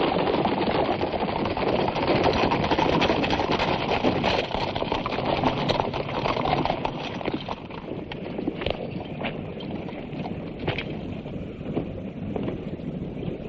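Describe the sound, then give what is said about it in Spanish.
Hooves of a mounted squadron of soldiers arrive on horseback in a medieval Spanish epic film. Many steady clip-clops run throughout, moderately loud, under a wind-like hiss, with no talk. “Un escuadrón de soldados a caballo llega y todos se giran.”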